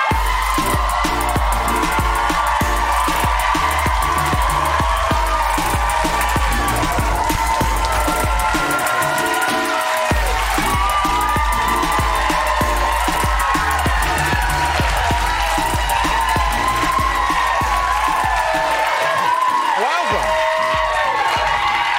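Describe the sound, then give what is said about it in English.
Audience cheering and applause greet drag performer Ben de la Creme as she walks on at a show, a dense, steady roar of clapping and shouting that holds loud for the whole stretch, with voices mixed into the noise. “This is so lovely. I didn't know the audience was going to go so crazy.”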